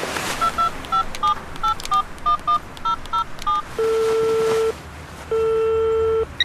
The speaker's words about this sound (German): Auf dem Weg zog sie ihr Handy und wählte eine Nummer.